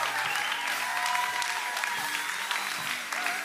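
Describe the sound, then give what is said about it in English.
Audience applause at a church service as a pastor is welcomed to the stage, a dense, steady clapping that fills the whole stretch at an even level. “So can we put our hands together and welcome Pastor Carey as he brings.”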